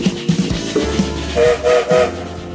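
Train slowly setting off, as a sound effect: heavy clanks and chugging thumps roll under a low rumble, then three short, tonal whistle blasts sound in quick succession.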